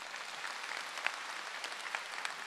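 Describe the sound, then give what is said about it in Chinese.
Faint audience applause at an indoor talk session, a soft, steady patter of scattered hand claps with a few sharper claps standing out. “鼓掌。”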